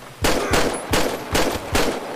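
Gunshots ring out in a police role-play video game: about five loud, sharp blasts at a steady, even rhythm, each trailing into a broad wash of noise, with no talking.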